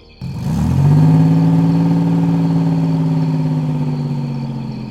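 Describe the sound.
A car engine turns over as the car drops someone off at home, its pitch rising briefly before settling into a steady, loud, low hum that slowly eases off.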